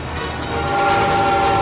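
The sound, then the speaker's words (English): A Santa Fe train engine rounds a bend: a loud, steady rolling rumble that swells slightly and carries a held horn-like tone throughout, with no voices. “As the Santa Fe engine rounds the bend, Stuart is tied to the tracks.”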